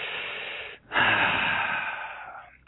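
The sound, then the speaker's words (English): A deep breath taken with eyes closed before a prayer: two long, soft breathy rushes separated by a brief pause, the second longer and fading out gradually. “let's all shut our eyes and close and take a deep breath.”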